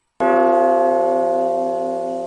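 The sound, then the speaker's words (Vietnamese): A large golden bell comes down with a single sharp, booming strike, then rings on in a long, steady metallic hum that fades slowly. “phần kim quang dính trên người Lý Nam đột nhiên hóa thành một cái chuông lớn màu vàng. Sau khi giáng xuống, chỉ nghe ầm một tiếng đã hoàn toàn chụp kín.”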